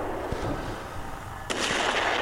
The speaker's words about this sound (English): What's happening? Wow. They're shooting at us.